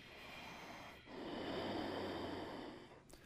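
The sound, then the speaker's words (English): Nasal breathing resonating in the throat during a yoga breathing exercise: one long, steady inhalation with a soft breathy rush over a faint low hum, preceded by a brief quieter breath. “the breath starts to be drawn in from the throat. Oh, through the nose, but resonating in the throat. See how it's nasally?”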